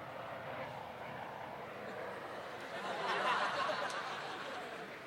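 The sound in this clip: A helicopter flying overhead makes a faint, continuous engine drone that swells somewhat louder midway and then eases back slightly.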